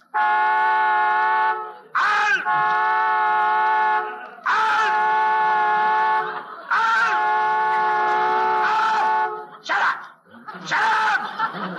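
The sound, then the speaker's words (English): A car horn stuck honking from a short caused by a crash gives several long, steady, buzzy blasts, each held a second or two. Brief chuckling vocal sounds fall in the short gaps between them. “Honking that horn. I'm not honking, sir. There must be a short, sir. The crash must have done it, sir.”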